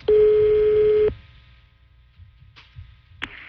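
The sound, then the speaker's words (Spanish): A telephone being dialed, with a loud steady tone lasting about a second, then a quiet stretch broken by two short, faint beeps. “Estoy marcando. Estoy marcando.”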